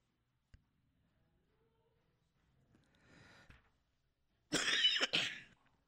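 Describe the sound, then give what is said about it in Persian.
Two harsh coughs break out near the end, preceded by quieter breathy throat sounds and a faint click. “عذرخواهی میکنم پیشا پیش به خاطر اینکه من سرفم زیاد شده.”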